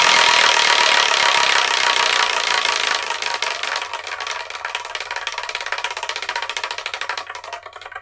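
Spinning prize wheel: a dense, rattling whir of rapid clicks that thins into distinct ticks, steadily slowing over about eight seconds as the wheel winds down, with no talk.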